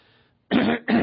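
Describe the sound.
Throat clearing and coughing: after a short silence come two harsh, loud bursts, the first longer, separated by a brief dip.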